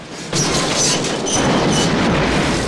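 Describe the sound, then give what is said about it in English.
In a film, a steam train smashes through a sign and plunges into a ravine. A dense, roaring rumble swells after a brief quieter start and holds loud to the end. “The train smashes through the sign and plunges into the ravine, flames spitting from its mangled funnel.”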